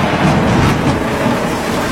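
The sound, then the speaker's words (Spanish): Steady rain, a dense, even hiss with low rumbling texture that continues unbroken and at constant loudness for the whole clip, with no voices. “Goteras, filtraciones. No tema la lluvia.”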